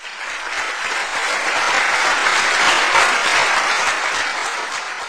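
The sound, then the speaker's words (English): Ovation from the audience at an opera premiere at the Czech National Opera, a dense, sustained roar of clapping that swells slightly in the middle and holds throughout. “The premiere was a top-notch performance and it gained well-deserved ovations.”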